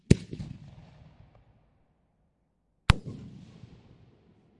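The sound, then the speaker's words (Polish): Two sharp, loud bangs from an EU-certified four-shot firework bomb shell being set off, about three seconds apart, each followed by a crackling, decaying rumble that fades to quiet. “Teraz przechodzimy do bomb 4 celowych, również posiadających certyfikat Unii Europejskiej. Pozycja 64. O symbolu P8804.”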